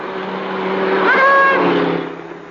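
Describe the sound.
A car sound effect plays from a gramophone record: a brief engine passage that swells in loudness while a whining tone rises in pitch midway, then fades.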